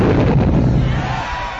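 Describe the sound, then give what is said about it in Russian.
A ship's cannon volley fired at close range into an enemy vessel's side: a loud, heavy, continuous roar of blasts and rumble with no separate shots standing out. “Мы успели сильно сблизиться, и теперь наш залп был куда удачнее.”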